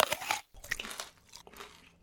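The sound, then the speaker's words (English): Teeth bite into a crunchy candy apple, giving a quick run of crackling crunches followed by softer chewing, all fairly quiet. “Oh, this thing is delicious. What's it called? It's a candy apple.”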